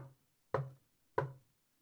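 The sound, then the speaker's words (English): Knocks on a coffin in the middle of a room: sharp, hollow raps, evenly spaced, each dying away quickly into silence. “She walks over to the coffin in the middle of the room and knocks three times”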